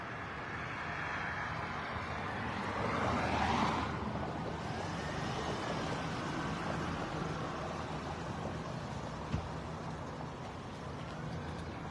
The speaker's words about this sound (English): You're going to see as soon as they come around the corner, they're waving this vehicle to come in.